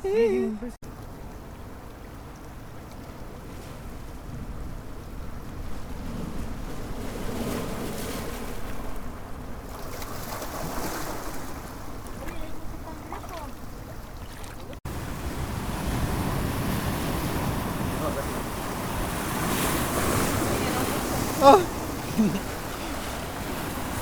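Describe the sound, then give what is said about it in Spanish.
Ocean surf with the tide coming in: a steady, continuous wash of waves with wind, swelling slightly louder toward the end. “La marea está subiendo.”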